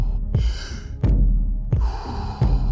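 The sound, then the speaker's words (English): Slow, rhythmic breathing in and out: four loud, airy breath strokes with sharp onsets, each followed by a long, rushing hiss that fades out, spaced evenly. “Breathe in, breathe out. Breathe in, breathe out.”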